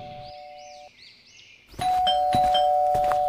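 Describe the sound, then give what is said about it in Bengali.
Doorbell ringing: a few soft, chiming notes, then a louder, sustained electronic ring with bright, buzzy overtones that continues to the end. “তারপর এমন সময় calling বেলটা বেজে ওঠে”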